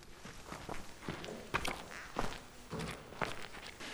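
Footsteps walk back up a crooked, sagging staircase, a soft, uneven series of many thuds and scuffs at an irregular pace.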